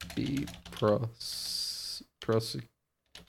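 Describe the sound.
Someone types on a computer keyboard, with quick key clicks running alongside a person speaking and a sustained hiss in the gap between words.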